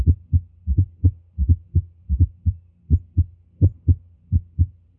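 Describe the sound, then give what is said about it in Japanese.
Heartbeat heard at the cardiac apex, with a split first sound and an atrial sound just before it. Many low, dull thuds fall in a steady, repeating cluster pattern with no talk. “これは1音の前にちょうど0コンマ11秒の分裂がありまして、いわゆる心房音が聞こえているわけです。”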